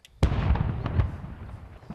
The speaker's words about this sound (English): And you can see from these aerial pictures the bomb going off in a controlled way.